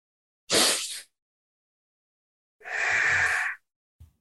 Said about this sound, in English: take two breaths, one on top of the other through the nose, and you exhale. You can exhale through the nose or through the mouth for this exercise.